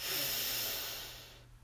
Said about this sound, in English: One last time together. Breathe in